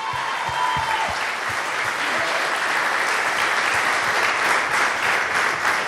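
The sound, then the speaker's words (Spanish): An audience at a church service breaks into applause, a thick steady roar of many hands clapping that holds at an even level throughout. “Si tú crees en ese Jesus, dale un aplauso real.”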